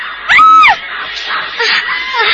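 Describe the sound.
A woman's high, wailing scream: one loud cry whose pitch arcs up and then falls, followed by fainter, broken vocal cries.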